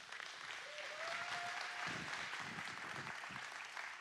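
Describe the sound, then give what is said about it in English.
Audience applause at City Church greeting a guest speaker as he is introduced: soft, continuous clapping that swells slightly after the first second and then holds steady at a low level. “So would you all put your hands together and welcome our guest speaker today,”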